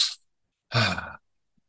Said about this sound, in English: Two sharp inhales through the nose, it looked like, and then one slow gentle exhalation through the mouth.